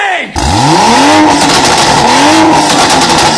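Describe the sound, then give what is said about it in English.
A 600-horsepower car weighing about 2,000 pounds, stripped so light the seats could come out, roars loudly with its engine running; its pitch sweeps upward in two rising revs over a constant throaty drone. “It makes 600 horsepower and weighs 2,000 pounds. Yeah, just as light as a Miata. There's nothing to this car. You could take the seats right out. We got the rice burner up.”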